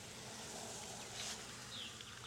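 Honeybees buzz faintly and steadily in an opened hive of old bees with a failed queen, a continuous, even drone with no voices.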